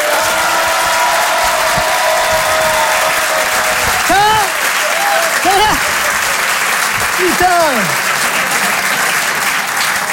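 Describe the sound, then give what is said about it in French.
Audience applause greets a comedian at a stand-up show: dense, sustained clapping throughout, with a few loud whoops and shouts rising above it. “Mesdames et messieurs, ladies and gentlemen, Ibadla, faites du bruit pour Boudère!”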